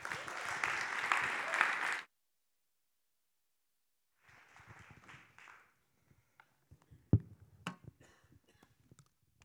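Audience applause welcoming a guest to the stage at a church gathering. It is a dense, steady patter of clapping for about two seconds that stops abruptly, followed by quiet and a few faint scattered knocks.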